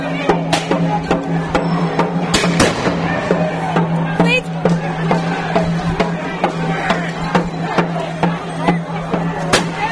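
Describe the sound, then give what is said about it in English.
Rubber bullets fired at a crowd: many sharp, loud cracks at irregular intervals cut through a steady hum and restless crowd noise, with voices shouting. “They're just dragging somebody out there, now firing rubber bullets.”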